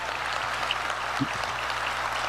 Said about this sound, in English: Clap it up for that.